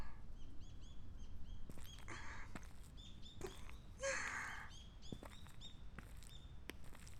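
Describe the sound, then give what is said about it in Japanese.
Small birds chirping outdoors: a few quick, high chirps and short trills come and go, faint against a quiet background. “こういう小鳥のさえずりとか聞くと、こっちに帰ってきたって感じがするんじゃないかな。”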